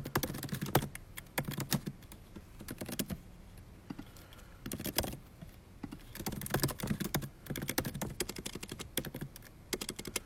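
Rapid typing on a computer keyboard while a billing address is entered, many quick clicking keystrokes in uneven bursts with short pauses, and no voices.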